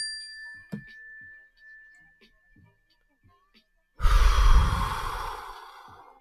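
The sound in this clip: Mindfulness bell ringing as one steady, sustained high tone with faint clicks beneath it, then cut off by a loud, deep breath drawn and let out.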